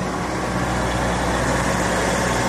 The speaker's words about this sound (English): Sorry. Whoa, big trailer coming in.